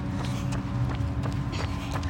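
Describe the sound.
Footsteps of someone jogging outdoors make a steady, rhythmic patter of soft thuds over a constant low rumble.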